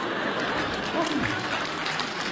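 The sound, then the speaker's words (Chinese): Audience applause fills a comedy stage show, a steady dense wash of clapping throughout with a slight swell near the middle, fairly loud. “来点掌声好吗？哎呦，哎呀，楼上都鼓掌。”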